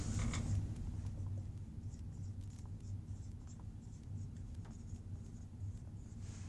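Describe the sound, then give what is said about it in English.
Handwriting during a mechanics lecture on center of mass: a steady, soft scratching of strokes that continues throughout over a low background hum. “All right, I'm also going to write the position.”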